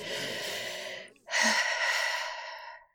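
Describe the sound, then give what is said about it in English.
A deep breath is drawn in audibly and then let out in a longer, airy exhale after a brief pause. It is breathy and fairly loud, with no speech. “All right. Everyone, just take a deep breath.”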